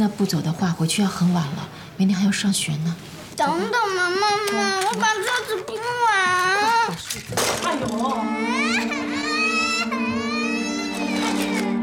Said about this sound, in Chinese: 你都把孩子吓哭了